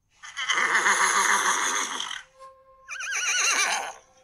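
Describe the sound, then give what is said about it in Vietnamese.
A black horse neighing long: a loud, wavering whinny lasting about two seconds, followed by a brief pause and a second quivering, trilled neigh, with no talk. “Con ngựa đen hí dài một tiếng, tiếng hí át hết thanh âm của mọi người.”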